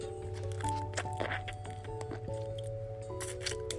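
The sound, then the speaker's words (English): Plastic wrapper of a candy cane crackling and squishing as someone struggles to open it, many small crackles over steady sustained tones in the background. “She's been trying to open her candy cane for like 5 minutes now.”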